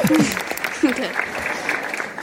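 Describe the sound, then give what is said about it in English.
Applause for the winner of a friendly argument contest, a steady patter of clapping lasting about two seconds, with a voice talking over it at the start. “A round of applause for you.”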